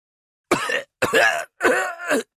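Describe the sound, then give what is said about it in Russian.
Three harsh, forceful coughs from a patrol group leader wracked with pain, each about a third of a second long and separated by short silences, with a rough, throaty quality. “Слова ведущего группы прервал кашель.”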